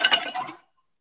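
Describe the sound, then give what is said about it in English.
Ice cubes dropped into a mixing glass holding bourbon for a stirred cocktail give a brief, bright rattle of clinks, then silence. “And then you're going to add your ice right in”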